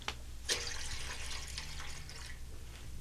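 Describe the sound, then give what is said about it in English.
Water splashes faintly as Jesus washes a disciple's feet, soft trickling and sloshing with one brief, sharper splash near the start over a low background hum. “Judas, I would wash thy feet first. Wash my feet, master? Yes, Judas. He is washing my feet like a common servant.”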